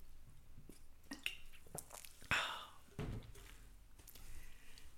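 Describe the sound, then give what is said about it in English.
Faint sips and swallows as someone pauses to take a drink, soft wet clicks and a gulp in a quiet stretch with no talking. “Oh, I have to pause here and take a drink.”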